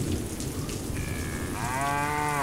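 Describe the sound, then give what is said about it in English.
Cows low in the rain: a steady hiss of rainfall runs throughout, and partway through a drawn-out, harmonic moo rises over it and holds to the end, with a briefer tonal call just before. “It's starting to rain again. Oh my God, look at all this rain. Now the cows don't like it. All the cows are gonna get rained on.”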